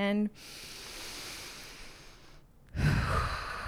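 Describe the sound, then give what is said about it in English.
A group's big deep breath taken together: a soft rush of air swells and then drops away, followed by a louder breathy exhale-like burst near the end. A brief voiced sound comes just before it. “Let's all take a big breath together.”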